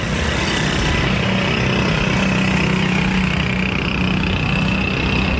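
Engine noise of an auto rickshaw, a loud, unbroken low rumbling drone with a buzzing tone, holding steady at the same level throughout without revving.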